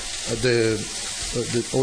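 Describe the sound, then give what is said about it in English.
Meat sizzles and crackles as it fries in a hot pan over strong, high heat, a steady frying hiss with a few brief voiced sounds over it. “We'll give him about 2 minutes on each side, so for a total of 4 or 5 minutes in the pan at a quite high strong fire”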